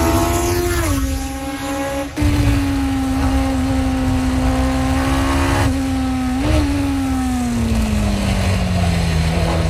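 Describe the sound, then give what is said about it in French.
Race car engine lapping a race track: a loud, continuous, harmonically rich drone. Its pitch dips early, breaks sharply and resumes after about two seconds, wavers mid-clip, then sinks gradually toward the end. No voices are heard. “Extrait d'un tour de piste du pilote québécois Bertrand Gaudin sur sa page YouTube”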